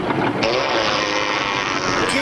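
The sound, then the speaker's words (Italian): A long, buzzy raspberry (pernacchia) blown with the lips in the style of Alberto Sordi: a loud, rasping, noisy drone that holds steadily for about two seconds. “Ecco, cari lavoratori, non è la nostra pernacchiona alla Alberto Sordi, è per voi, anzi è un modo per incentivarvi a scriverci”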